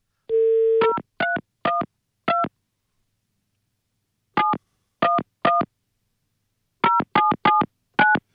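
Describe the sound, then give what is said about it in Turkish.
A telephone number is dialed: a brief dial tone gives way to a series of short, crisp keypad beeps in uneven groups separated by pauses, with no voices. “Bak arıyorum şimdi, numarayı arıyorum.”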